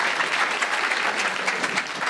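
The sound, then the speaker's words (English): Audience applause at a live show: an even, sustained wash of clapping from many people. “Give them a big round of applause for your support, ladies and gentlemen.”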